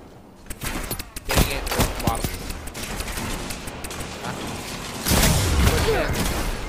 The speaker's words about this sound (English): Where am I getting shot from? The right?